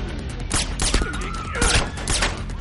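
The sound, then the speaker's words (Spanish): Several sharp gunshots ring out in a station lobby in an action thriller film as a violinist fires at a man from behind. The loud cracking bursts come in a quick irregular series over a dense background. “En el vestíbulo de una estación, una violinista dispara a John por la espalda.”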